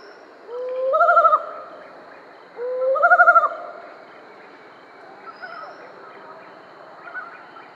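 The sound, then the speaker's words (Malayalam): Mottled wood owl calling: two loud, wavering hoots about two seconds apart, each rising into a bright quavering tone, followed by a few much fainter calls, with no voices present. “കാലൻകോഴി mottled would owl”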